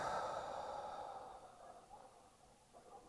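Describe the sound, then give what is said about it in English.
A person breathing out through the mouth during a guided breathing exercise, one soft, airy exhalation that slowly fades over a few seconds, faint and without talk. “Now breathe out through the mouth.”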